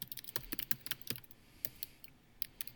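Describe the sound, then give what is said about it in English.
Typing on a computer keyboard: many quick, irregular key clicks in uneven bursts, faint and alone with no talk. “I'm looking this up right now. Okay. If I can type.”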